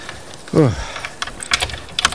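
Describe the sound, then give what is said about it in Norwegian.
Keys scraping and clicking in a rusted lock that will not turn: a few light metallic rattles and ticks follow a short voiced sound. “Men det var da merkelig, da. Har jeg fått feil nøkler? Låsen er rustet fast. Nei, den passer ikke låsen, den her.”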